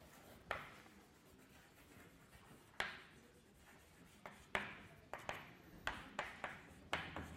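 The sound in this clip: Handwriting during a mathematics lecture: faint, quiet strokes with many sharp taps and scratches in an irregular rhythm, clustering more densely toward the end, with no talk over them.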